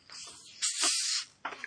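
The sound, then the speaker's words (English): A fresh Irn-Bru soft drink is cracked open, releasing a faint, breathy fizzing hiss that swells and fades, followed by a brief second burst of hiss. “That is the sound of a fresh Iron Brew being cracked open.”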